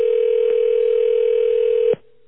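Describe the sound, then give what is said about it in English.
A steady ringback tone on an outgoing phone call, one long unbroken tone that stops abruptly, leaving a faint low hum. “It was a very long ring there.”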